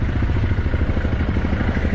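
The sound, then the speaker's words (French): Busy road traffic in Bidur, by the Trishuli river: cars, motorbikes, army trucks and NGO jeeps. A continuous low engine rumble with a pulsing, clattering texture and no voices. “ici, on voit qu'il y a un balai incessant de voitures, de motos, des camions de l'armée, plusieurs jeeps aussi d'ONG”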